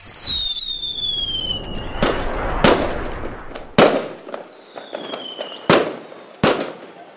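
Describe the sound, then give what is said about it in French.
Fireworks explode at the close of a display in Nice: five sharp, loud booming cracks at uneven intervals, with whistling streaks falling in pitch as rockets rise and a continuous crackling rumble filling the gaps. “c'est la fin du feu d'artifice.”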